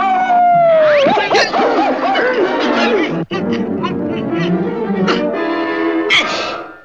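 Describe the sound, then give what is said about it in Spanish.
A cartoon coyote howls at the moon: a long howl slides downward, then breaks into wavering wails and whimpering yips that rise and fall over a dense, busy background. “Eso no es más que un viejo coyote que le aúlla a la luna.”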